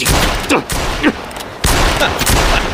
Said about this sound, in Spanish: ¡Sacadme de aquí o dispararé! Inténtelo. Pero dudo que desde ahí abajo tenga buen ángulo.